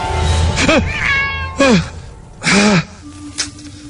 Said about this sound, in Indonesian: kucing dasar. Ternyata itu cuma kucing. Ngagetin aja.